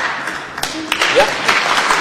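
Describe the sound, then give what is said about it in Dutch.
Applause for newly sworn-in council members, a patter of clapping that swells and thins while people talk over it. “En dan mag geapplaudiseerd worden.”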